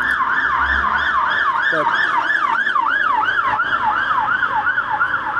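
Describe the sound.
A police siren passing by, wailing loudly in a fast, repeating rise-and-fall cycle that continues steadily throughout with no other sounds over it.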